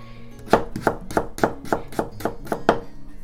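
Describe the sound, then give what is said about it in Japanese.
A knife chops carrots into thin pieces on a board, a steady, even series of crisp, sharp thuds, each short and clear with nothing else heard. “今人参切ってます。”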